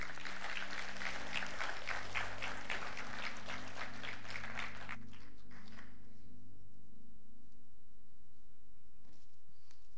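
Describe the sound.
Audience applause welcomes a speaker at a church service: a dense, steady wash of clapping for about five seconds, then it fades out quickly into quiet.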